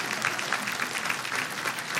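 Audience applause honoring a longtime volunteer coordinator, a full, sustained wash of many hands clapping at a steady level with a faint crowd murmur.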